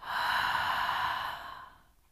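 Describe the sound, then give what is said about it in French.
A single long, breathy exhale through the mouth, part of a guided meditation exercise of breathing in through the nose and out through the mouth; a steady airy hiss that fades gradually at the end, with no talk. “Inspirer par le nez et expirer par la bouche.”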